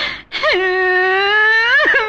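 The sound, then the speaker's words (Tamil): A woman cries and whimpers: a short sob, then a long, loud wailing moan with a wavering tone, bending upward briefly near the end before breaking into another sob. “அழாத அழாத அழாதமா, நான் இருக்கேன், கவலைப்படாத.”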